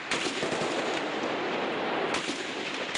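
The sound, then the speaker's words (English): Gunfire at a Palestinian refugee camp in Lebanon during fighting between the army and militants: a dense, continuous crackle of rapid shots, with sharper bursts near the start and again around two seconds in, and no voices. “that's the sound of gunfire at a Palestinian refugee camp in Lebanon.”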